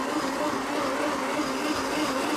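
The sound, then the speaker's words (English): A blender whirs as it purées soup ingredients in a kitchen, giving an even, continuous motor drone with a steady pitch and no breaks. “Let's blend it. While that's blending, I'm going to flip this tofu.”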